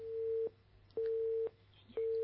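Telephone line tone as a caller is connected: a steady, low-pitched electronic tone in even on-off pulses, three beeps with short silent gaps, clean and moderately quiet with no speech.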